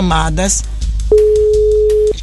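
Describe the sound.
A single steady telephone tone of about a second, heard during a radio phone-in prize call. It follows a brief spoken voice and is set against a low background hum.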